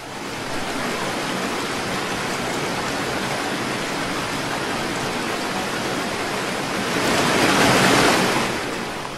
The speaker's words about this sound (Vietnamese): Những con sóng lớn cứ nối nhau va đập, sau lưng dư chấn vẫn chưa dứt.